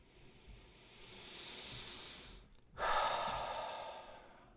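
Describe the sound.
A deep breath in and out during a guided breathing exercise: a slow, soft inhale swells gradually, a brief pause follows, then a louder, hissing exhale tapers off, with no talk.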